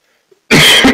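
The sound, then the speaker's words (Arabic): A loud, harsh cough from a tired man bursts in abruptly after near silence and runs on to the end, with no talk around it. “معلش انا عارف ان انا بكح كتير وتعبان”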